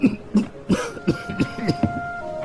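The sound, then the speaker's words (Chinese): A man coughs after choking on food: a run of harsh, throaty coughs in an uneven rhythm, each a short loud burst, with a faint steady tone behind them. “哎呀，给爸噎着了。”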